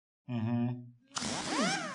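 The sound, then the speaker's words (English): A dental drill bores out a cavity: a brief low buzzing tone gives way to a bright, high whine whose pitch wavers and swoops. “The drill is ready, Doctor. Drill. Laughing gas, please. Now watch closely as we bore out the cavity.”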